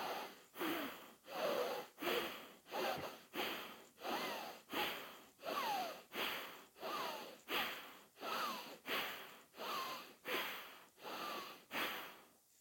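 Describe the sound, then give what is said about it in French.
Rapid rhythmic breathing through one nostril at a time during alternate nostril breathing, exhaling through the left with the right closed: many quick, evenly spaced breaths, soft and alone. “D'abord, expirez narine gauche, la narine droite est fermée, et on y va pour 10 respirations.”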